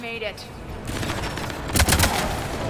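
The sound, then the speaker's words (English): Video game gunfire as guards shoot: sustained rattling bursts of shots with a brief voice at the start, the firing swelling louder in a dense cluster midway before continuing steadily. “Ari shooting people. Some guards shoot one of the Asari that was with us.”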